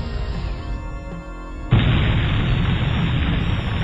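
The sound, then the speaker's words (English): Torpedoes launched and exploding in a ship-to-ship weapons exchange: a droning tonal hum is cut by a sudden loud booming blast that carries on as a sustained, heavy roar. “Just a little closer. Launch torpedoes.”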